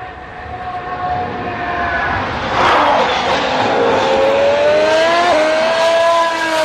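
A racing car with a Mercedes engine passes trackside. Its sustained high engine whine swells to a loud roar partway through and stays loud to the end.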